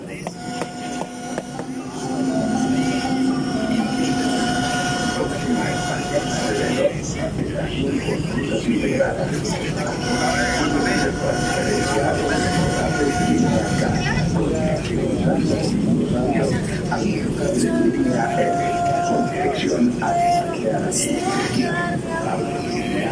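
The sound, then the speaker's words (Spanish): A metro train runs through Medellín with a constant loud rumble, layered with sustained tonal whines and rattling. Voices can be heard amid the noise throughout. “El metro de Medellín.”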